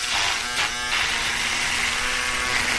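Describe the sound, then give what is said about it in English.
Buzzing of an electric shaver during shaving: a continuous, even, coarse whir with a steady hum underneath, loud and alone, with slight roughness early on. “here is the answer, ladies and gentlemen, is shaving with an electric shaver. That's what it is. It sounds like this.”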